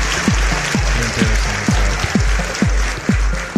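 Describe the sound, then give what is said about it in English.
A live studio audience applauds loudly in a dense, continuous wash of clapping, with a steady thumping beat pulsing underneath throughout. “It's our live studio audience. They are at fever pitch tonight. Worked into a lather.”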